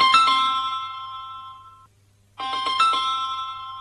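A phone rings with a bright electronic chime of repeated tones, heard in two bursts separated by a short silence, over a low steady hum.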